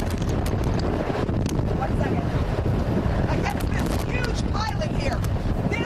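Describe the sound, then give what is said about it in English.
Strong hurricane wind roars in a dense, constant rush with gusty buffeting, loud and unbroken from start to finish. “She can't stand there and talk. That's how hard the wind is blowing. She cannot stand there and talk. It's too much wind for that.”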